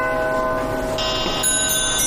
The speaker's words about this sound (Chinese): 这是敲钟的声音。